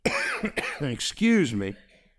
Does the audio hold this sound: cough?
yes